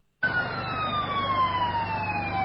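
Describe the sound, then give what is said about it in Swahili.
A fire engine siren wails at a large market fire in Bujumbura, Burundi, beginning abruptly after a brief silence and holding one loud, steady tone that slowly slides lower in pitch. “Hicho ni kikosi cha zimamoto”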